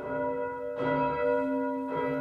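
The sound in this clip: Church bells ring in the morning, with two clear strikes about a second apart over a lingering hum of overlapping tones.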